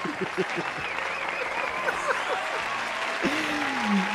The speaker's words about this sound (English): the audience sounds positively excited